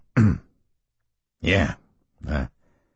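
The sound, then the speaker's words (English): A man clears his throat three times, in short, gruff, rasping bursts separated by brief silences. The last burst is slightly weaker than the first two. “Ernie cleared his throat and said”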